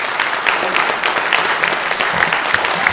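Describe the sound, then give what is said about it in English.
Audience applause fills the space: dense, loud, continuous clapping from many hands, steady throughout with no breaks. “We're going to clap until you get here.”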